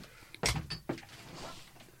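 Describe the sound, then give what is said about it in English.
A door opening for a visitor gives two quiet mechanical clunks in quick succession, with a soft rattle between them, then trails off into low background hush. “Someone else at the door. Yes, get him in, see what he wants.”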